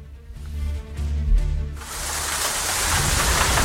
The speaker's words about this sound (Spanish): Ese es el sonido de la lluvia en Jerez de la Frontera.